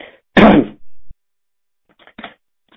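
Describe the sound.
Throat clearing: a short, harsh rasping burst followed by a brief lower grunt, then a few faint voice sounds after a pause.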